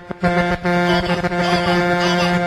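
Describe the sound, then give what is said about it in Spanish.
A truck horn from an 18-wheeler blares as one loud, sustained, steady tone lasting the whole clip, with sharp percussive hits underneath. “Tócame la bocina”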